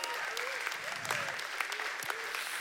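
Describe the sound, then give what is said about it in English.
Audience applause as two guests are welcomed onto a stage: dense, steady clapping fills the whole clip while a voice speaks over it. “Can you give it a hand as I welcome up Dave Crowder and Sam Solberg? Let's give these guys a big hand.”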